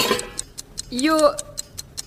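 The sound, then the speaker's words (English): A clock ticks steadily after a 15-minute timer is started, with many crisp, evenly spaced ticks. A voice speaks briefly over the ticking in the middle. “You've got 15 minutes to create a stream of wounded invective culminating in a flounce out of the restaurant through the practice door we've rigged up. And I'm starting the clock now.”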